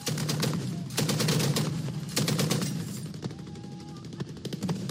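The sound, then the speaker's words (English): Gunfire from heavy machine guns as pro-government forces fight near Hodeida, Yemen: several rapid bursts of sharp repeated shots, separated by short pauses, rather faint overall. “That's the sound of pro-government forces firing heavy machine guns near Hodeida Thursday.”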